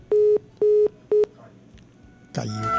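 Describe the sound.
A phone call drops mid-conversation and the line gives a busy signal: three loud, steady mid-pitched tone beeps of equal length, evenly spaced, then a pause.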